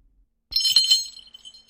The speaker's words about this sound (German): Da klingelt es an der Tür.